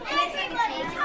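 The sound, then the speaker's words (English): Chattering hubbub of a primary school class of ten-year-old children in Devon, England, just before lunchtime: many young voices overlapping in a continuous, busy murmur. “This is the sound of Class 5 at Blackhorton Primary School in Devon, England, just before lunchtime.”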